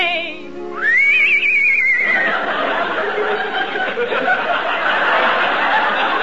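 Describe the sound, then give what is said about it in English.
A horse neighs: one loud, high, wavering whinny that rises and then tapers off, followed by rough, breathy snorting. “Oh, boy, ain't you an ugly horse. You can't do tricks like Trigger.”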